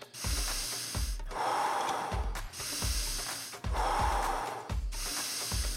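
Deep, loud breaths drawn in and pushed fully out during a breathwork practice, about five long breaths alternating in a steady, unbroken rhythm over a low pulsing beat.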